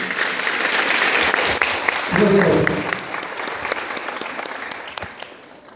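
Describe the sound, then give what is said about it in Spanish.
A strong round of audience applause at the opening of a formal assembly, dense and loud for about three seconds with a brief voice in the middle, then thinning into scattered separate claps that fade out. “para que te diga un fuerte aplauso”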